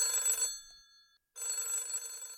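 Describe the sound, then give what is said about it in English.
A telephone rings in a pub with a bright, metallic bell trill. Two loud bursts are split by a short silence, and no other sound is heard. “As I started to settle down, the phone rang.”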